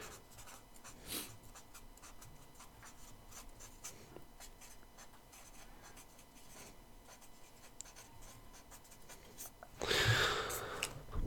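A pen scratches across paper in a steady run of quick, dry strokes, with a louder, denser burst of scribbling near the end.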